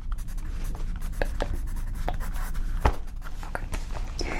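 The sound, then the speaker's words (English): Handwriting on paper, made up of many quick scratchy pen strokes in an irregular rhythm over a faint steady background, with no talk. “just a second, I finish writing this.”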